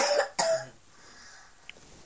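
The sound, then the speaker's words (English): A nasty cough: two harsh, rasping bursts in quick succession, the second slightly longer, followed by near quiet with one small click. “Oh dear, it's a nasty cough.”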